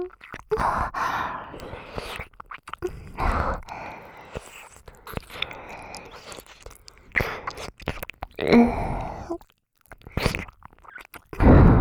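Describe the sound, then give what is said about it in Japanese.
Wet ASMR mouth sounds of ear licking and nibbling come in irregular soft bursts, with short pauses and breathy sighs between them. “お姉ちゃんにお耳舐められるの癖になってきてるよね。”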